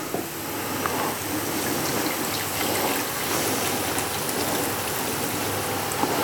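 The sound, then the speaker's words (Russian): Water poured over cabbage, a continuous, even rushing splash that holds steady for several seconds with no speech. “И заливаем чуть-чуть водой.”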